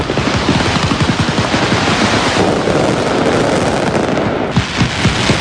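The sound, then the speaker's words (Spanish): A mascletà firecracker barrage in Valencia, a dense, loud stream of sharp bangs and cracks that merge into a continuous rattling roar for several seconds, with no voices. “Suspendida la tradicional mascletà del 9 de octubre, el día de todos los valencianos.”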